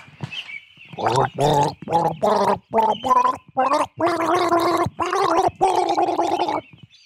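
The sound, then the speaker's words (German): A person gargles a tune using flower-vase water, producing a series of many wet, voiced gurgling notes separated by short pauses. The notes change pitch from one to the next, and the later ones are longer and sustained. “Dann werde ich jetzt mal gurgeln. Hier, ich nehme das Blumenwasser.”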